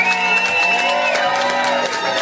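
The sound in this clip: An audience at a live reggae show cheers and applauds in a continuous loud wash of crowd noise, with whoops and shouting voices riding over the clapping.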